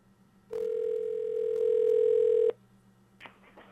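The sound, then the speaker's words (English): Telephone dial tone as a call connects: a loud, steady, unbroken tone lasts about two seconds and then cuts off abruptly, leaving faint low background noise with one brief soft click. “I'm sure it does take a while for phone calls to connect. Here we go.”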